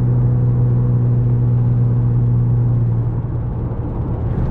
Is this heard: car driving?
yes

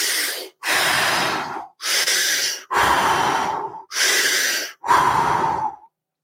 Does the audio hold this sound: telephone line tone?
no

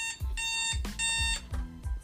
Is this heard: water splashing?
no

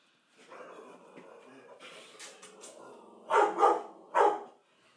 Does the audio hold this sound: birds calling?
no

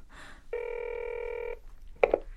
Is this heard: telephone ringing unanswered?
yes

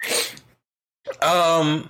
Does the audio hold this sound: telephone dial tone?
no

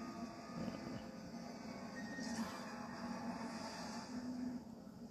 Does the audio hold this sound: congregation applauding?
no

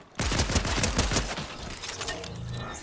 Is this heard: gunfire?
yes

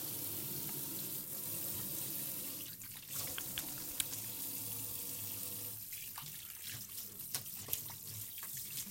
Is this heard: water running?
yes

